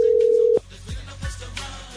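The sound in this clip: A telephone tone plays while someone is being called. A single steady electronic tone holds for about half a second, then cuts off, leaving a few soft clicks on a quiet line.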